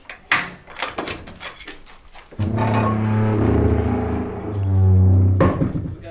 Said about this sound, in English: I'm just opening up the plant room. Small, dainty key.